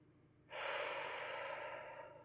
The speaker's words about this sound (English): Deep breath.